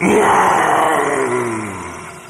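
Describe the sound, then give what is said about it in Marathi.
A wild animal roars in a forest, one long, loud, rough roar that starts strong and slowly fades toward the end. “एकदम त्याला मोठी डरकाळी ऐकू आली.”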